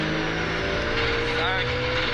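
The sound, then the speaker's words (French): A rally car with a six-speed gearbox brakes hard, its rear wheels close to locking, under a loud, steady engine drone with a sustained tonal whine. “Voilà, ça c'est un freinage de rallye. T'as les roues arrière, limite blocage.”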